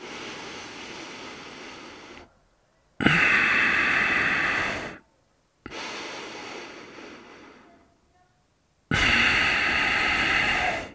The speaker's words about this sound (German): Wir können alles über die Nase machen. Sieht dann ungefähr so aus.